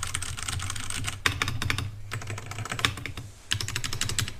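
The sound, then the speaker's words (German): Computer keyboard typing: many quick, faint keystrokes come in rapid bursts, with short pauses between runs and no talking. “Und jetzt tippe ich noch mal so ein bisschen rum.”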